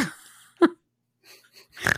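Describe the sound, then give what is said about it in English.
A single short, sharp nasal snort bursts out of near silence, with faint breaths and brief voice sounds at the edges. “And I get a snort on that.”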